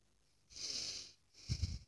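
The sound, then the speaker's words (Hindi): Deep breaths drawn in during Agnisar pranayama, two long, airy, hissing breaths with a short gap between them, fairly soft and heard alone without talk. “दूसरा जो है प्राणायाम उसे अग्निसार कहते हैं इसमें आप सांस अंदर खींचिए”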